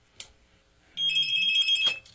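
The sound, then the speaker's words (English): A telephone rings once: a single high, warbling electronic burst lasting about a second, heard alone against near silence. “I think we got phone calls coming in left and right already this morning because the phone's ringing again”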